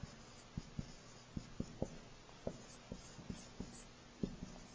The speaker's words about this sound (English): I'm sorry if you don't like how I'm representing the people here. I try to draw bodies, but people make fun of my drawings.